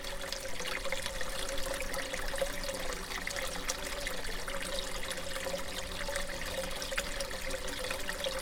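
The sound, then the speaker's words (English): Water trickles steadily in a small homemade garden pond, about six by four feet and a metre deep. The flow is gentle and continuous, holding an even level throughout, and no voices are heard. “Well, you're hearing a pond. I built a pond in our garden.”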